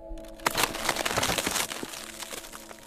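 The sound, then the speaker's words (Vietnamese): A bed creaks and crackles as someone claws at it and pushes up to sit. A dense, scratchy rustle swells after a short quiet start, holds at moderate loudness, then thins out, with no voices. “Anh cào cấu xuống giường, rồi anh chống tay ngồi dậy. Cái giường kêu ken két đánh động con Mích cùng với cô An”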